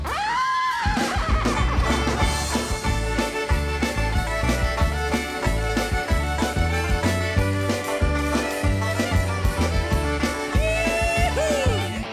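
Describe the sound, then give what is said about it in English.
A singer imitates a horse's whinny in a song about farm animals, a brief, wavering cry near the end over steady, full band music. “And I got a little horse, kick him in the rear. He goes,”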